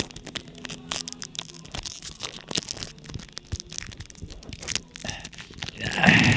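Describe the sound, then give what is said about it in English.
Crinkling foil and tearing as a pack of Guardians of the Galaxy trading cards is ripped open, with many irregular crackles and snaps over several seconds and a louder rustle at the very end. “And I thought we'd open these trading cards up on the podcast, especially since we got a few minutes to burn here.”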